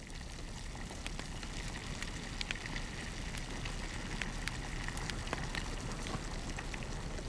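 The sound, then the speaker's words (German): An open fire crackles under a steaming tea kettle inside a mountain cave, a steady faint hiss scattered with many sharp, irregular pops and snaps, with no voices. “Er führt sie zu seiner Berghöhle, in der auf dem offenen Feuer der Teekessel dampft.”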